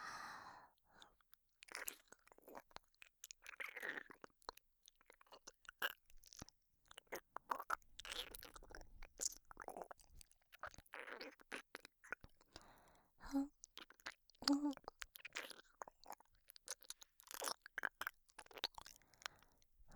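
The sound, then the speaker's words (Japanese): Macarons being bitten and chewed, with many soft, quick crunches and moist mouth sounds in an irregular rhythm, all quiet and close. “マカロン食べてからだよ。中に残ってるのも残さず食べるの。”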